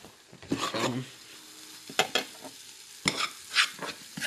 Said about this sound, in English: Caramelizing onions slowly. Bake them down. Nice crisp.